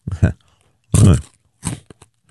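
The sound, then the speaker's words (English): Cheetos are eaten in a few loud, crisp crunching bursts separated by short silences, with a couple of smaller crackles near the end. “I'm fumbling for something to munch on while I go upstairs and get my coffee. Cheetos.”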